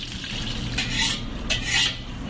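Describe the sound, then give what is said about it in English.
A utensil stirs and scrapes in a hot pan as crab meat is mixed into scrambled eggs, garlic and onions. Several sharp scraping strokes ride over a low, steady sizzle, with no talking. “And then we add the crab meat. This way the crab meat is cooked and it got mixed in with the garlic and onions.”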